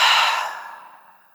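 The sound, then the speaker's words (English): A long exhale through the open mouth during a guided breathing exercise. The breathy rush starts strong, then fades smoothly over about a second to near silence. “Take a deep breath in through your nose. And a long exhale, open your mouth.”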